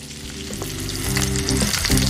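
Tofu skin sheets stir-fry in a tossed wok as a ladle pushes and flips them and soy sauce goes in, a loud, continuous sizzle with bursts of crackling that grow slightly busier toward the end, no talking.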